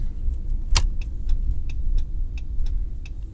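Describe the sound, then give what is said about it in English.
A car turning from one street onto another on a quiet, snowy street: a steady low engine and road rumble, with a regular, faint ticking like a turn signal over it. “turning off of Iroquois onto Jefferson. Jefferson is looking awfully quiet and snowy tonight.”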